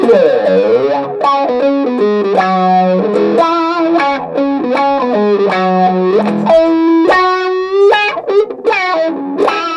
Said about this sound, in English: Let's hear their wah.